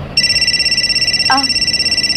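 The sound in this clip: A mobile phone rings with a steady, high electronic tone that pulses rapidly and evenly. It starts abruptly after a brief quiet moment and keeps going to the end.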